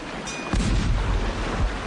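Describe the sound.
A ship's cannon fires in a salute: one deep, heavy boom breaks in sharply and rolls on as a sustained low rumble until the end.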